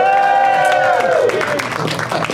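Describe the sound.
A live comedy-show audience at Flappers in Burbank cheers and applauds. The noise is loud and continuous, and a high whooping voice glides downward over the crowd before the roar settles into scattered claps and shouts.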